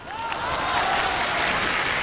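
An audience at a comic stage performance breaks into applause, a continuous, fairly soft patter of many hands clapping at once.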